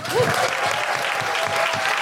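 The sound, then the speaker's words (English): An audience at Soho Theatre gives a round of applause: dense, steady clapping that stays loud throughout. “And a big, big, big round of applause and thank you to Soho Theatre.”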